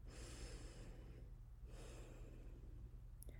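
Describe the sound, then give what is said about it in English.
A nice deep breath taken to get ready: one long, airy inhale, a short pause, then a long, soft exhale, heard alone and fairly faint. “Let's get ready for our story by taking a nice deep breath to prepare ourselves.”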